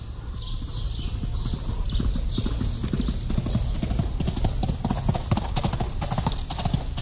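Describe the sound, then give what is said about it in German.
A horse gallops in a fast, steady run of loud clip-clopping hoof beats that keeps an even rhythm from start to finish, with no voices. “Das ist Miguel Paramos Pferd, das zur Medialuna galoppiert.”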